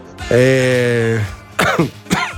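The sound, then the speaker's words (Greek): A person coughs twice in sharp, harsh bursts, following a drawn-out voiced throat sound; loud and close, with no other sounds around them. “συμπαθάτε με για το βήχα.”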